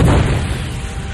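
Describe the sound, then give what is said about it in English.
An explosion as a concussion missile is struck by a burst of plasma: a single deep, loud boom that hits at once and rumbles away over about a second. “A concussion missile hurtled toward the ship. Ganner sent a burst of plasma out to intercept it. And Jaina jinked sharply to avoid the resulting explosion.”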